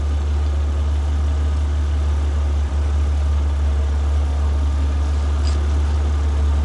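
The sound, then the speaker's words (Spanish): A car leaves with its engine running, making a steady low rumbling drone with a faint higher hum. The loudness stays even throughout, with no other sounds. “mira cómo se aleja el coche”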